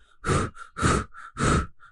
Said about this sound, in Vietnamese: Hắn thở hổn hển